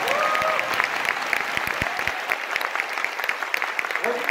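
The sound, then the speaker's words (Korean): Applause from an audience at a political speech, a dense, steady clatter of many hands clapping evenly throughout without letting up. “이 정도면 박수 한번 쳐주셔야 됩니다.”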